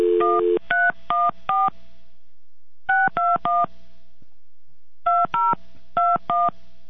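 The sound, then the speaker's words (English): Telephone keypad tones as a number is dialed, loud, clean beeps in three quick groups separated by short pauses. “Hold on, let me just dial it.”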